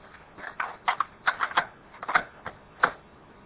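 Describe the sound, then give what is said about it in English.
A cassette tape is flipped over in a tape recorder, giving a quick, irregular run of soft plastic clicks and clunks that is fairly faint and has no voices. “excuse me while I flip the tape”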